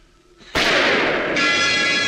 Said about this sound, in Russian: В этот момент раздается выстрел.